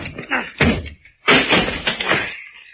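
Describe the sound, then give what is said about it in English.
A locked door being forced and broken down: a few heavy, thudding crashes and bangs in a rough, uneven sequence, loud and dense with noise. “Oh, that door's locked. Stand back, Fern. Yeah. I'll have to break it down.”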